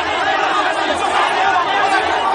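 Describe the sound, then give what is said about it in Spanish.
About a hundred men shout in a village square in Madagascar, crowding around a cobra and mongoose fight and placing bets. The dense, continuous roar of voices stays loud throughout. “Un centenar de hombres gritan en la plaza de una aldea de Madagascar, alrededor de un coso en el que pelean una cobra y una nutria.”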